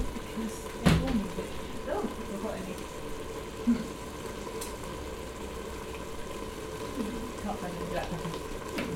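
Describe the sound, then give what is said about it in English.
Food sizzles in a pan while being stirred, a soft, steady frying hiss broken by a couple of sharp utensil knocks against the pan. “I'm going to give this a little stir as well, just to get that going. Give it a little stir”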